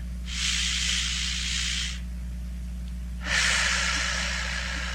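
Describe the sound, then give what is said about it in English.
Two long, airy breaths taken during guided relaxation breathing, each lasting about two seconds with a pause between, the first a deep breath in, both soft and breathy over a steady low hum. “let us breathe together to clear some of our energy right now. Please breathe in fully.”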